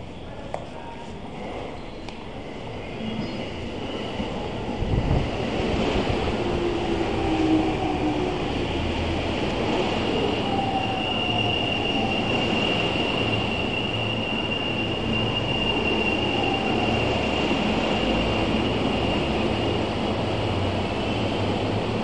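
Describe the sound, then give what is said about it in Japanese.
A Yamanote Line inner-loop train arrives at platform 2, bound for Ikebukuro and Shinjuku, with a continuous rolling rumble of wheels and carriages and a thin, high whine running steadily over it. “まもなく2番線に池袋新宿方面行きが参ります。危ないですから黄色い線の内側までお下がりください。”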